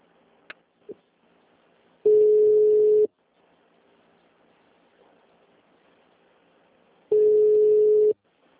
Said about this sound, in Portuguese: A chamada está sendo encaminhada para a caixa de mensagens e estará sujeita à cobrança após o sinal.